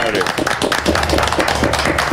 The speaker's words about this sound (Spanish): Y gracias, un aplauso para nuestro amigo Renato.